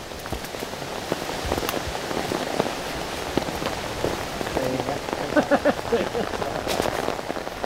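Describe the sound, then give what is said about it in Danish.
Rain falls steadily outdoors during a summer walk through hunting grounds, a dense, even patter on surfaces that keeps the same level throughout. “Det blæser lidt, men øh, det regner mindre.”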